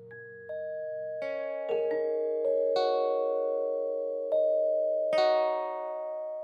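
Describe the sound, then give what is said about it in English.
Bell-like chimes and musical notes sonifying live edits to an online encyclopedia, several clear tones struck one after another at irregular intervals, each ringing on and overlapping into a gentle, sustained wash with no voices. “This is the sound of the living, growing internet. It comes from a website called Listen to Wikipedia that translates everything that happens on the online encyclopedia into a musical note.”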